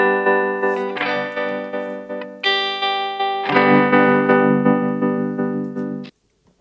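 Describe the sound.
A buzzy, distorted held tone run through an audio effect with bass and treble LFO modulation, pulsing in steady rhythmic swells across several sustained notes before cutting off abruptly.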